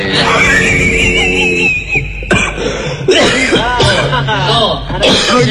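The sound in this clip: A few harsh, throaty coughs from a voice in a Sundanese-language comic storytelling performance, broken up by strained vocal cries over steady background noise.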